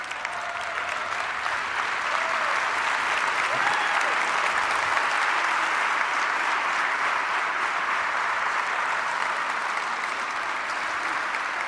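Standing audience applauding to welcome a guest author to an evening book discussion, a long, even and full burst of clapping that holds at a constant level throughout.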